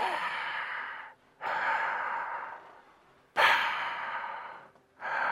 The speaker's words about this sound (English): Take a deep breath, with the scuba gear on. It's a little different. Doesn't work quite the same. Hear that.